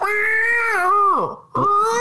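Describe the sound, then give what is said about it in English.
A cat meow sound effect: a long, wailing meow holds a steady pitch, then slides sharply downward, and after a brief break a second cry starts up again. “That's a cat out of the bag, everybody.”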